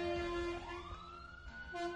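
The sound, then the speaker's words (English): A fire truck siren passes outside: a steady, piercing tone joined by a wailing note that sweeps upward in pitch, over a low rumble of engine and traffic. “It's funny that we're hearing the fire truck now”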